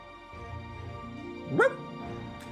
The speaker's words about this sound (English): Chu lets out a little bark